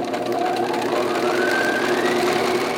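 A sewing machine stitches quilt panels together into an abstract design with a steady, continuous mechanical whir and hum. It stays loud and even throughout, without pauses.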